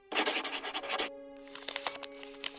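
A pen scratches across paper as a signature is signed, first in a burst of loud, rapid, rough strokes, then in lighter, scattered scratches.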